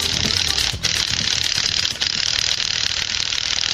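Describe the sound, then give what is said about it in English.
A lug wrench ratchets in a garage with a fast, steady, loud run of clicks, broken by two brief pauses. “Boy, it's a good thing the lug wrench had some power in it to get that open sign up.”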